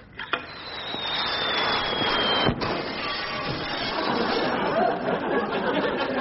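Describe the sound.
A firework rocket goes off: a thin, high whistle that slowly drops in pitch, then a sharp crack, all over steady background noise with faint chatter.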